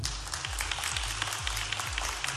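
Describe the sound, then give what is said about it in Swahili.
Audience applause at a Young Africans club meeting as a new vice president is introduced: soft, steady clapping over a faint low drone. “Tumpigie makofi tafadhali.”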